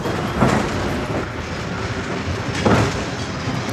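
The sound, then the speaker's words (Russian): A green suburban electric train pulling away, giving a steady, dense rail rumble with two brief louder surges partway through. No voices are heard. “Электричка трогается.”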